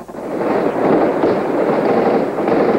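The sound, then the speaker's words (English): Small arms fire rattling through the streets of Moscow during heavy fighting around the parliament building: a steady, dense crackle of overlapping shots that holds a fairly even loudness throughout, with no voices. “There was war on the streets of Moscow as small arms fire rattled throughout the city.”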